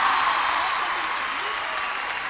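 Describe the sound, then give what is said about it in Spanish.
Audience applause at a live tropical-music concert in 2014: dense, steady clapping from a large crowd that continues unbroken throughout at a strong, even loudness. “Bien fuerte que se escuchen los aplausos.”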